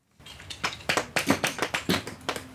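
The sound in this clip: A hammer splitting thin limestone plates at a fossil dig in a quarry, under a tent roof: a quick, slightly irregular run of many sharp taps and cracks, moderately loud, with no voices.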